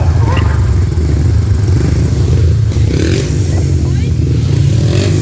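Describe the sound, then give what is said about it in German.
Motorcycle engines roar at a sand track race in Hechthausen. The drone is loud and continuous, with scraping clatter running through it. “Ich weiß, in Hechthausen gab es so ein Sandbahnrennen. Aber das seid ihr nicht. Ja, wir.”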